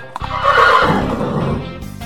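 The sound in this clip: A horse neighs in one loud, drawn-out whinny that fills most of the moment, with no voices heard.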